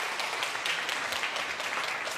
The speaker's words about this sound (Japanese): じゃあ皆さん大きな拍手を。